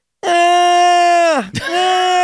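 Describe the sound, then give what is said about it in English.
A voice imitates a loud, drawn-out yawn, a sustained open vowel held at a steady pitch that dips and breaks briefly near the end before resuming at the same level. “it's Joe Starkey yawning.”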